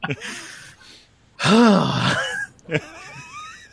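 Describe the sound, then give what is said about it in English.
A deep breath, drawn out into a long voiced exhale lasting about a second, with a rising then falling tone, between stretches of quiet talk. “Can we take a deep breath here?”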